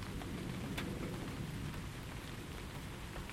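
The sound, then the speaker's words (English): Steady rain dripping onto a shed canopy, a dense, even patter with a few sharper drops standing out, continuous throughout with no voices. “Bone dry below the canopy of the shed, and it's nice to hear the rain dripping”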